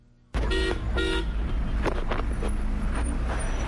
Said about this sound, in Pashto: دا د کابل ښار په مرکزی برخه کې د افغانانو سیمه ده. په دې سیمه کې د خلکو او موټرو ګڼه ګوڼه خورا زیاته ده.